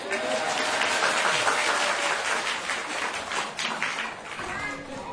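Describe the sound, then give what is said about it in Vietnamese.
Loud audience applause fills a Vietnamese-language gathering, with many hands clapping in a continuous dense patter that stays strong for the whole stretch and eases slightly toward the end. “Trời ơi sao vụ này vỗ tay lớn người ta.”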